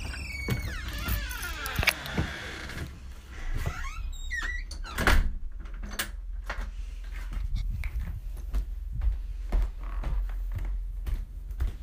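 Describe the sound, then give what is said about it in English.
A door is opened with a run of clicks, knocks and rattles spread over about twelve seconds. High, wavering whines and panting from a dog are mixed in, heaviest at the start. “Open this door and get ready for work.”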